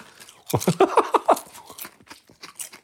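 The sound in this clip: Crisp crunching and chewing on a pineapple-flavoured snack: a burst of several loud, dry bites and crunches, followed by softer, scattered chewing that fades.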